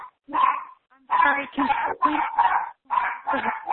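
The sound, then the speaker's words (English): A dog barks in the background of a group phone call: a rapid series of sharp, mid-pitched barks and yips that come in bursts with short gaps between them. “muted their phone. Can you please mute your phone? Or is that your doggy phone having fun? It is not. It is not my dog. Okay, so whomever has dogs in the background,”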